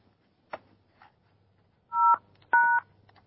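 Keypad tones from a mobile phone as a code is typed in: two clear, steady dual-pitched beeps of similar length, preceded by a couple of faint clicks.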